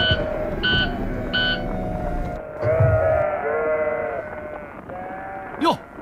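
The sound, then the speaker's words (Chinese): A lamb bleats, an injured straggler left behind by its flock, giving a few high, wavering cries over steady background noise while people talk nearby. “那边有只掉队的小羊，好像受伤了，咱过去救救他吧。”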